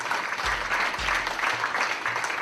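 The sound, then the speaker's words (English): Clapping at the introduction of a Paralympic wheelchair rugby team, a continuous, fairly loud wash of hand claps with a few deep, booming low tones pulsing underneath at regular intervals. “Zupan claps for him. From Phoenix, Arizona, Scott Hogsett. Now by himself, Zupan claps his hands one on top of the other.”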